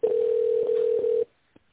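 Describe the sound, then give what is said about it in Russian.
A telephone ringing tone plays while the call is transferred to a secretary: one steady, single-pitched electronic tone lasting just over a second, then silence broken by one faint click. “Вызов переводится на секретаря.”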